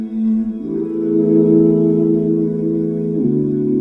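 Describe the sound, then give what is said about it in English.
A single person's voice is layered in close harmony with itself through a vocal harmonizer. It holds a sustained, smooth chord that shifts to a new chord early on and again near the end, with no other sounds. “What you're hearing right now is one person's voice, layered in perfect harmony with itself, using an instrument called a vocal harmonizer.”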